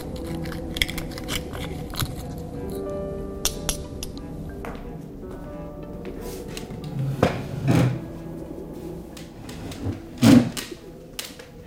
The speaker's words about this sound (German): Er bedient sich nochmal ausgiebig an den Austern. Einziger Laut ist das Knacken beim Öffnen der Schalentiere.